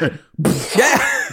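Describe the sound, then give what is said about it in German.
A voice imitates a cough: a short, forceful, breathy burst followed by rough, voiced rasping sounds lasting about a second. “Ich stelle mir auch vor, dass er dann versucht, so mit so einem Husten das Ganze zu überdecken.”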